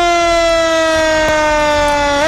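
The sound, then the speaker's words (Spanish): A fire engine siren sound effect: a loud, sustained, buzzy tone rich in overtones that holds nearly level in pitch, dipping slightly before rising sharply at the very end. “póngale el sonidito del cuerpo de bomberos. Eso, eso, de la ambulancia o del carro. Ese es el camión, ya, bien, póngale.”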